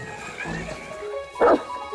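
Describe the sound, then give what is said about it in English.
A dog barks once, sharp and brief, cutting over a steady bed of background sound near the end of the moment. “that dog clearly needs to go on a walk.”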